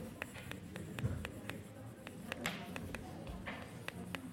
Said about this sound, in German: Ups, jetzt schreibe ich hier zu weit hoch.